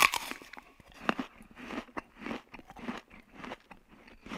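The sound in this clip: Crunchy biting into a piece of fruit, depicting Adam and Eve eating from the forbidden tree: a sharp bite, then repeated crisp, moist crunching and chewing in uneven bursts.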